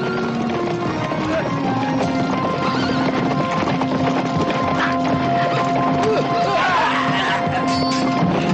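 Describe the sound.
Horses gallop with mounted soldiers in a forest battle, giving a continuous, dense clatter of hoofbeats with whinnies. The din holds steady and fairly loud for the whole stretch.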